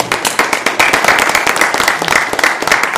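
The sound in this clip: Enthusiastic audience applause welcoming a guest speaker, a former architect turned church pastor. The clapping is loud and dense, with individual claps standing out, and it stays steady throughout.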